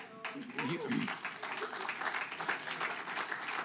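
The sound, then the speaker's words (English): Audience clapping that builds into a soft, even wash of many hands after a voice speaks at the start, staying fairly faint and continuous to the end. “you may clap”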